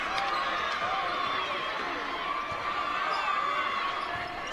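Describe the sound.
A basketball is dribbled during a game, its repeated bounces thudding against steady crowd noise.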